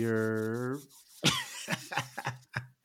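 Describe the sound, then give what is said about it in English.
Hands rubbed briskly together, a run of short, rasping strokes of varying loudness, following a brief voiced tone. “Let me get a hand rub in here.”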